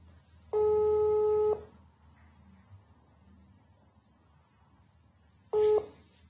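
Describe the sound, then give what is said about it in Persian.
An outgoing WhatsApp call's ringing tone: two steady electronic tone bursts. The first lasts about a second, then a long quiet gap follows before the second, which is cut short at the end. “الان واتساب اینو گیر آوردم، میخوام زنگ بزنم بهش تبریک بگم.”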